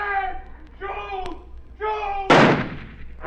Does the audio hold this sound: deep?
no